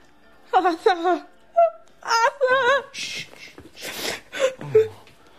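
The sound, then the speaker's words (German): A person cries in a drama, a wavering, high-pitched wailing and whimpering voice heard in several uneven bursts, each sob rising and falling in pitch, with breathy sounds in between. “Nicht weinen, nicht weinen.”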